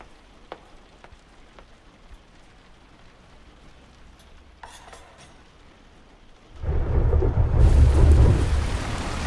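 Heavy rain with thunder pours down as someone gets into a cab: a deep, dense roar that swells in suddenly after a long quiet stretch with a few faint ticks, then stays loud to the end.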